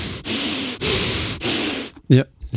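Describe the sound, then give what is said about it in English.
A voice imitates breathing out into a microphone. Three long, harsh, breathy blasts of noise follow one another, then a short voiced grunt. “So as long as you're not breathing out and going,”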